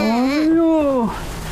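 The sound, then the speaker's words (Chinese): A baby cries, unsettled and refusing to be soothed: a single sustained, tonal wail lasting about a second, its pitch arching gently up and then down before breaking off into quiet. “一直哭啊！你怎么哄也不行。”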